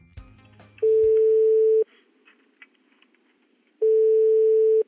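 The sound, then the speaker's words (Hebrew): Ringback tone of an outgoing telephone call: two steady, mid-pitched tones, each about a second long, with a silent gap between them. The tones are loud and clean. “אני חושבת שזה הזמן להתקשר למגדל שמן זית. בוא נתקשר.”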